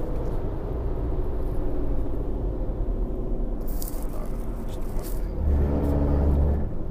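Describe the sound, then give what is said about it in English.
A truck passing to the left on a road with a lane closed, a continuous low engine rumble and road noise that swells slightly near the end. “Sorry about that. There's a truck that needs to pass to the left. Because there's a lane closed.”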